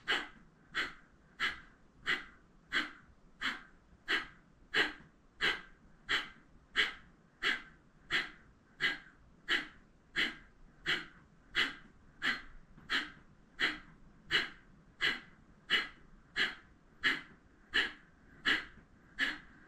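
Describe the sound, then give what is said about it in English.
Forceful exhales through the nose in Kundalini Yoga breath practice. Many sharp, even puffs repeat in a steady, quick rhythm for the whole stretch, each a short hissing burst. “blow something out with your nose. Only focused on the exhale. Don't worry about taking breath in.”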